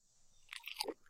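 A bite of a triple-patty burger is chewed with faint, wet crunching. A few irregular bursts come in the second half.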